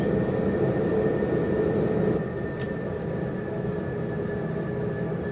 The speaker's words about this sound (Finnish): voit pysäyttää siihen ja kone nousee ilmaan. Laskuteline valitaan siitä ylös.